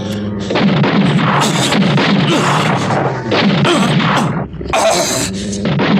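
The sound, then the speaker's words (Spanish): Gunshots fired at attacking wild beasts, a few loud, sharp bangs standing out from a dense, continuous roar of noise that stays loud throughout. “Dispare contra ellos antes de que ataquen, capitán.”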